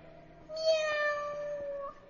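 A cat meows once, a clear, drawn-out harmonic cry lasting over a second, swelling early then holding steady before fading, with quiet background around it.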